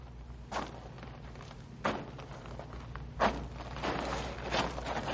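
Footsteps step backward, a few faint, dull treads spaced irregularly over a low steady hum.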